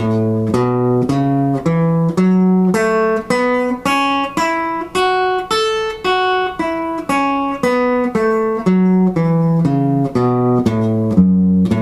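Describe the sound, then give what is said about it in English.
An A major pentatonic scale played on a guitar from the fifth fret, as many clean, evenly spaced single notes that climb and then come back down. “if we play that same scale but don't start on F-sharp, we start on A, played by pinky at the 5th fret, it's going to sound like this”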